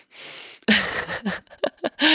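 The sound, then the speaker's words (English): Strained breathing through a badly stuffy, blocked nose: a long breathy hiss of air comes first, then a few short, tight snorts and nasal grunts with rough voiced edges. “this is me trying to breathe in through my nose.”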